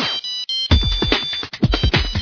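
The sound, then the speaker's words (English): A phone ringtone plays a song set as a Nokia ringtone. It is a bright, busy electronic melody of many quick notes, loud and alone, with no talk. “Put your favorite song on your favorite phone. Buy a Nokia ringtone card at participating 7-Eleven stores today.”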